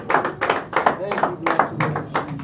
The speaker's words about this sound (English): Give the Lord a hand clap of praise this morning.